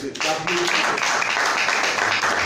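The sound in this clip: Audience applause congratulating a performer, a dense, steady wash of clapping that begins after a brief moment and carries on evenly to the end.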